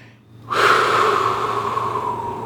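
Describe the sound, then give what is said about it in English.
A deep breath: after a short quiet, one long, steady, airy intake of breath is drawn in and held for about two seconds, with no talking. “Let me take a breath to get ready.”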